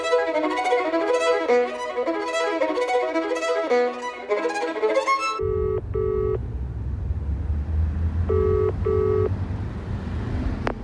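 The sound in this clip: A payphone at a petrol station rings out on the line in two double-beep bursts over a steady low traffic rumble. A stretch of rhythmic music plays first and then cuts off.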